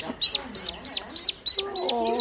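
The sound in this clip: Seven evenly spaced, high, sharp chirps come from a four-day-old baby bird, loud and insistent in a regular rhythm, with a quiet voice underneath in the second half.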